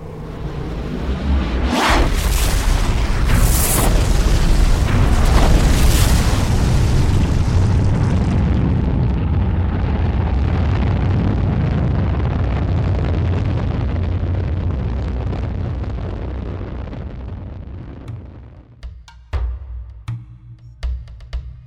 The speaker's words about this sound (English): 10 seconds, gravity neutralizer on. Neutralizer on. 5 seconds. 5 seconds. 4, 3, 2, 1. Blast off.